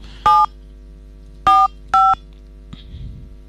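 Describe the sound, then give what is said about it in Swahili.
Telephone keypad dialing for a call to a selected number in a cash bonus draw: three short, clear two-tone beeps, fairly loud and evenly pitched, with the second and third close together. “acha tuone kama atachukua simu.”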